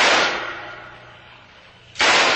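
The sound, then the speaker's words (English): Gunshots fired at a man fleeing along a dock by the sea: two loud, sharp bursts, one at the start and one near the end, each briefly sustained, with a quieter stretch between them. “Alto! Alto, I shoot!”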